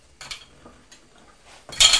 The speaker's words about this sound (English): That's a spoon. And that's a big, big knife for chopping things.